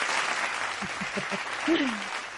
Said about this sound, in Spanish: Aunque bueno, nos tuerza el hocico, pero por favor, aplausos, carajo. Aplausos, carajo.